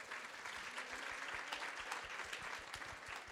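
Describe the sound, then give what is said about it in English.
Audience applause welcoming a panel onstage, a dense, steady wash of many hands clapping at an even level throughout, with no voices over it. “So please put your hands together and welcome our panel.”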